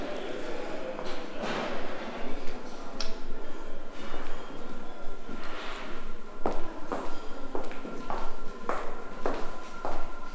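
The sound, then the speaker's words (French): A wooden parquet floor creaks under footsteps on the upper floor of a festival venue: many irregular creaks and shuffling steps, with a faint steady hum beneath. “dans un endroit où je crois le parquet craque beaucoup, mais on verra ce qui se passe.”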